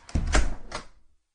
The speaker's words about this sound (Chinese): 然后便将门关上了。